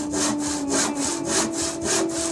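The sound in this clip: A saw cuts through wood in steady back-and-forth strokes, each one a rasping, hissy pass that swells and fades in an even rhythm, with no voices.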